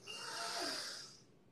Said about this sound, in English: Take a second, deep breath in again, in through the nose deeply.